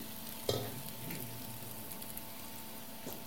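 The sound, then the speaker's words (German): A little oil sizzles faintly in a pan as something fries, making a soft, steady crackling hiss with a small knock near the start. “Vielleicht ist mein Öl zu wenig. Niedrig, genau. Ich tue so ein bisschen Öl rein.”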